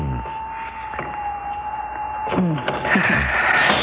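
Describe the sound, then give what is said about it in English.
An elevator arriving, with a steady high mechanical hum and a motor-like whine that run throughout, followed by a few louder clunks and rattles toward the end. “Oh, the elevator's here.”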